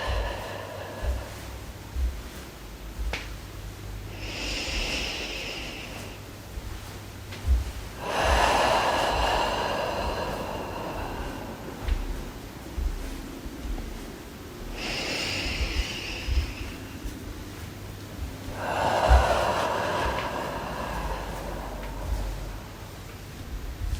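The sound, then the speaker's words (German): Deep breathing, slow and audible, in two full in-and-out cycles, each a soft airy inhale followed by a longer, fuller exhale with pauses between, over a low steady drone. “Dazu atmen wir wieder tief ein und aus und lassen beim Ausatmen das los, was noch losgelassen werden möchte.”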